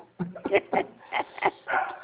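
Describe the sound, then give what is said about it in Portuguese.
A dog barks during a call recorded while working from home, giving several short, sharp yaps in an uneven series, with a thin, band-limited tone. “Eu acho que é a primeira gravação com cachorro”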